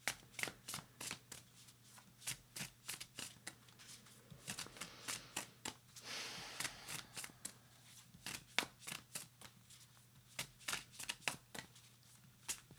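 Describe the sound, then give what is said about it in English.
A deck of animal cards is shuffled quietly, giving many crisp, irregular card clicks with a denser fluttering riffle partway through. “Let me pull out my animal cards and finish this up.”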